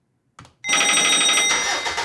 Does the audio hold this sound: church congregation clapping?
no